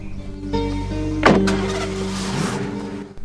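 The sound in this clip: Someone climbs back into a car, with one sharp thud of a door shutting midway through over a low, steady background hum.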